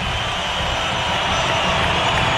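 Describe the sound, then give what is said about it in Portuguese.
Fans at a Palmeiras football match roar as a returning player comes onto the pitch. The crowd noise is a dense, continuous roar that swells slightly in the second half. “Olha a reação da torcida, ó.”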